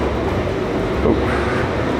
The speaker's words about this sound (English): Now I gotta get out of the train.